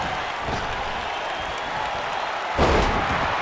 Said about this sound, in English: Huge side slam by Yoko.